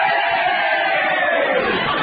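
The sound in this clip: Crowd cheering at a football game, a dense roar of many voices that stays steady and loud for the whole stretch, with no single words standing out.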